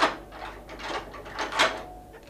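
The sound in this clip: Clunking and scraping of a tower door being unlocked with keys and pushed open, in a few separate bursts of rattling metal and wood with no voices.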